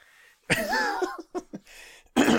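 A person clearing the throat with a drawn-out, voiced rasp, followed by a couple of short guttural bursts and a final louder one, heard alone in a quiet setting.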